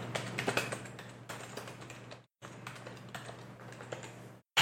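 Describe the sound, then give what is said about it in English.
Typing on a computer keyboard: many quick, light key clicks in two rapid bursts, split by a brief pause. “I can't type. Let's look at Texas Tech and see.”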